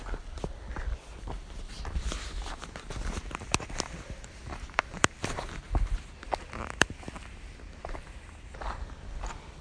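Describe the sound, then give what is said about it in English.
A person out walking makes many uneven footsteps, with irregular crunchy taps and scuffs over a constant background hiss. “And now I'm having a bit of a walk.”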